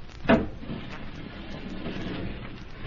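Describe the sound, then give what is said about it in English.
A sliding wall panel is opened with a lever: one short, firm knock near the start, then a low, steady rumble of movement until the end. “How do you open the panel, Amira? This lever.”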